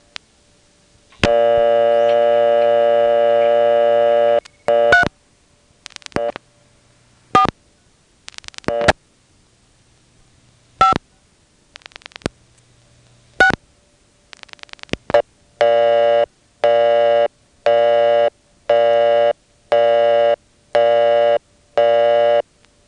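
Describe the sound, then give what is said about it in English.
A telephone busy signal after dialing a number: a long steady tone and scattered dialing clicks and blips come first, then a regular run of evenly spaced, identical beeps. “Getting a busy signal dialing the number was a very encouraging sign.”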